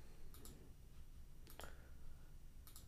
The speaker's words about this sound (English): Click, click, clickety click, clack. I know, I'm over here like trying to figure things out while I'm recording the podcast.